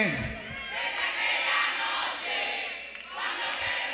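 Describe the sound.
An audience applauds and cheers at a live concert in Tampa in 2007, a dense, continuous roar of crowd noise that swells and dips slightly without pause.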